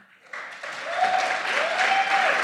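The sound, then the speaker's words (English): Audience applause at a talk on capitalism and democracy: a short, dense burst of many hands clapping that starts quietly, jumps up and then holds at a steady level. “No need to clap.”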